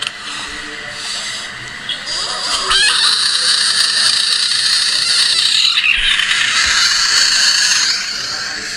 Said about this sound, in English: It's a screaming frog. And to put it away, aren't we all screaming frogs? We're all screaming. Like. Actually, I think it's a toad, but whatever.